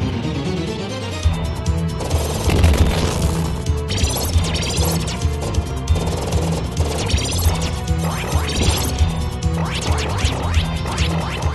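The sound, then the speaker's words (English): Spread gun fire from the Contra 3 video game, a dense run of many rapid, crashing shot bursts over a loud, continuous game music track, with no talk. “And though you can hear the spread gun there, I maintain that the best weapon combination in Contra 3 was the homing gun and the crush gun.”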